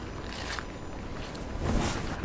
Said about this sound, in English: It's chilly, that wind.